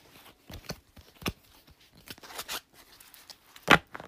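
Playing cards are shuffled in a few quick, soft flicks and papery snaps, then one sharper, louder snap of the deck near the end.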